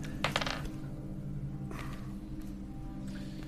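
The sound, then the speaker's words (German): Dice rolled during a word-guessing board game: a brief rattling clatter near the start, then a few lighter clicks, all over a steady low hum. “Ich will gerne auf fremde Sprachen würfeln.”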